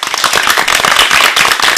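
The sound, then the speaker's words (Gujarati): Applause from an audience at a children's performance show, a dense, rapid patter of many hands clapping at a steady, loud level with no pause. “આ તાળીઓના ગડગડાટને વધારવા માટે તૈયાર છો ને?”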